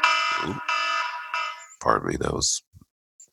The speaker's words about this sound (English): Wait, why did we both have alarms going off at the same time?